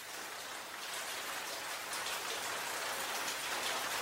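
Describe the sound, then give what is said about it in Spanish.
Rain falling in a dense, steady hiss that stays even throughout, with no voices. “Gota a gota, en mi cabeza, siento, las noto, empieza a llover.”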